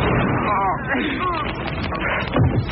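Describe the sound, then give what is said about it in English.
A gunshot goes off in a staged drama scene, a sharp burst of gunfire near the end over tense voices speaking throughout. “He's got a gun.”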